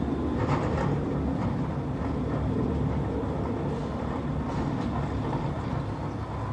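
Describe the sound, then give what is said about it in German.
A train passing by on the railway: a steady, fairly faint low rumble and rushing roll of wheels that stays even throughout, with no voices. “Da kommt der zweite Teil von der Bahn. Es ist Verlass drauf.”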